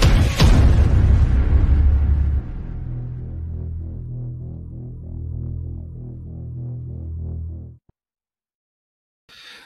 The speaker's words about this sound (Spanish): Amárrate las zapatillas. Vas entrando en calor. Línea de salida. Y se da el tiro.